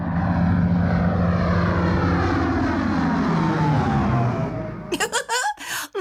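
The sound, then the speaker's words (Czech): An airplane flies overhead with a loud, steady engine roar whose pitch slowly sinks as it passes. The roar then fades near the end, where a few brief, separate bursts of sound follow. “My to ale víme, je to 3, 2, 1, letadlo.”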